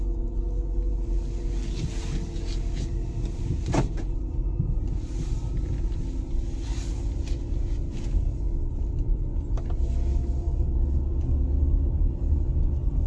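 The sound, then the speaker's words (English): A car engine and road noise give a steady, low, continuous rumble while driving, broad and even throughout, with a couple of faint brief knocks. “I'm driving, that's what's going on.”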